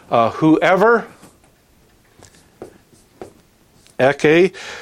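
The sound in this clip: Writing out a sentence: a few faint, scratchy strokes in the pause between stretches of a person talking.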